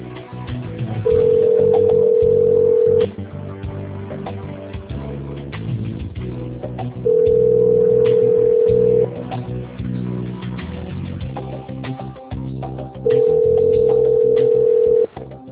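A telephone ringback tone plays while a call is transferred: three long, steady beeps of about two seconds each, evenly spaced, over soft background music.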